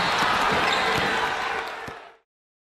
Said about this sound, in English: They're playing basketball. He shoots. He scores.